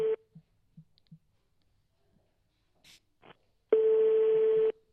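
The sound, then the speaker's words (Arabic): A telephone ringback tone sounds on a line while a radio call-in show tries to reach a technician. A brief tone tail at the start and a few faint clicks lead to one long, steady, buzzing ring tone near the end. “والهاتف باقي يرن”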